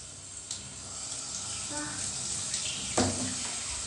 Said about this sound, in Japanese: じゃあシャワー出していきます。